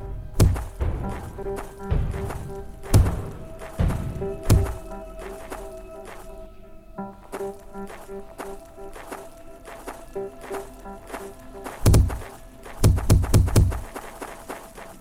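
A video game character repeatedly runs into a wall, making many dull thuds and thwacks at an irregular pace, some bunched in quick clusters. Faint sustained game tones run beneath them.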